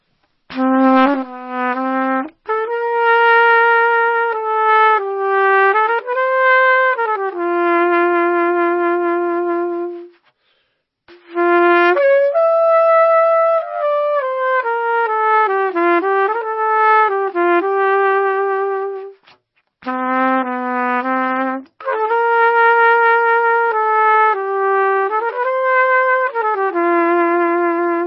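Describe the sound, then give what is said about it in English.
An untuned trumpet plays a melodic tune in three long phrases split by brief pauses. The notes are loud and sustained and step up and down. “I love it. That sound is just awesome, right? There's nothing that sounds like a trumpet.”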